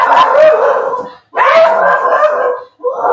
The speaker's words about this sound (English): That's Doug the dog. Yeah. The other three dogs are out in the back barking, too.